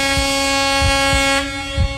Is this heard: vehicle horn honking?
yes